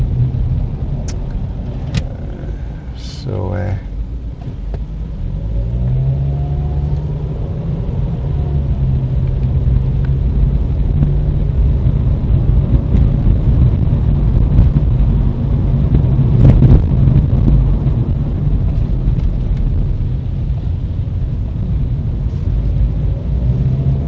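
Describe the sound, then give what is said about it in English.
A Ford Focus with 54,000 miles on it drives along, giving a steady, loud low rumble of engine and road noise. The level stays even for the whole stretch, with a few faint tonal whines early on. “This Ford Focus has done 54,000 miles. It's been good so far.”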